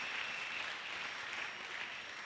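Faint applause from an audience at a church sermon, an even, steady hiss of many hands clapping with no voices breaking through.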